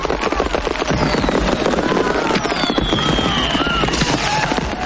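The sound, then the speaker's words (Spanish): Fireworks burst in the sky above a town street in an Old West setting. Dense, continuous crackling and popping run loud throughout, with thin whistling streaks cutting across the bursts. “desde donde se observan los fuegos artificiales estallando en el cielo.”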